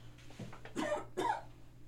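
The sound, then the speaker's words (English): A person clears their throat and coughs: two short, rough, fairly faint bursts close together. “pardon me, there's something in my throat.”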